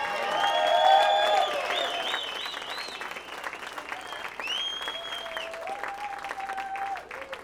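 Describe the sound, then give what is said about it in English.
An audience applauds to welcome guitarist Eric Gales on his first appearance in Fort Wayne. Dense, steady clapping with some cheering swells loudest early on, then continues slightly softer to the end. “first appearance ever in Fort Wayne. Give it up for Eric Gales.”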